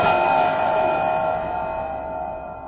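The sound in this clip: A bell rings with a single sustained, bright tone full of overtones. It holds steady and then slowly fades over nearly three seconds, with no talking.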